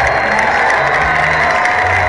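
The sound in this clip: A minor-league baseball crowd cheers and claps after a strikeout that strands the bases loaded in the eighth inning. The noise is a steady, moderately loud roar without distinct peaks.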